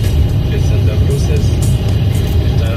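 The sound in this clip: A car drives on a highway near Baquedano and meets a traffic jam, giving a steady, loud low rumble of engine and road noise throughout, with voices talking over it.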